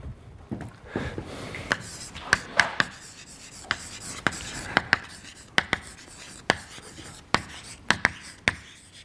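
Writing an equation on a board gives many sharp ticks and short scraping strokes in an irregular, halting rhythm. Each stroke is crisp and fairly distinct against a quiet background.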